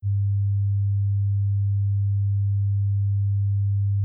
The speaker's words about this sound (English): In a moment, you'll hear a 100 Hz tone in your left ear.